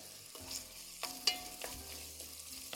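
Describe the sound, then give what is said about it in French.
Onions sweating in duck fat in a pan give a soft, steady sizzle, broken by a few louder clinks and scrapes of stirring, with no voices. “Mes oignons sont toujours en train de suer.”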